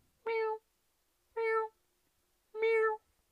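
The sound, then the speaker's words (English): A human voice imitates a cat meowing while giving birth, producing three drawn-out, strained meows. The calls are evenly spaced and heard alone against near silence. “as soon as it registers, I'm like, oh, my fucking God, this cat's giving birth”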